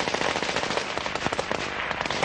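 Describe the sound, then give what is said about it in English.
Small arms gunfire during an insurgent ambush on a supply convoy on the outskirts of Baghdad: many rapid, overlapping shots form a dense, continuous crackle of sharp reports. “The U.S. military says an unusually large force of up to 50 insurgents attacked the convoy using small arms and RPGs.”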